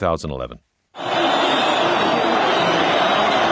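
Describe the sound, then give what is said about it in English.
Massive crowds roar in triumph in Tahrir Square as Mubarak steps down in February 2011; after a brief voice and a short pause, a loud, dense, sustained roar swells and holds steady. “massive crowds in Tahrir Square roaring with triumph when Mubarak stepped down”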